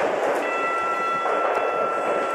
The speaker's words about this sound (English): Train approaching. Please stand clear of the platform edge.